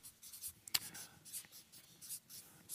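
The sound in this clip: Pen or pencil writing something down on paper: faint, scratchy strokes come in a few short bursts, with one sharper tick partway through, and no talk over them.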